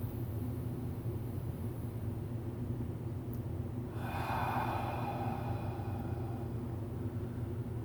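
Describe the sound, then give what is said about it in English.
A slow, deep breath in, drawn once midway as a soft rushing swell that fades out gradually over a steady low background hum. “First, I want you to just take in a deep breath. It doesn't have to be fast, but slow, deep in.”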